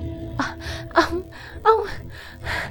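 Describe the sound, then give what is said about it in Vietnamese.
A woman sobs and gasps for breath, frightened and breathless right after a hand is pulled away from her mouth; several sharp, shaky gasping sobs rise and fall in quick uneven bursts, fairly loud and with no words. “Cô nấc lên và thở hổn hển.”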